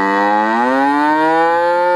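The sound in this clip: One cow moos in a long, loud, harmonic low that rises slightly in pitch at the start and then holds steady for about two seconds, heard alone.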